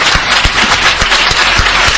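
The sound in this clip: An audience applauds in a dense, continuous rush of clapping that stays loud and steady, with a few heavier thumps scattered through it.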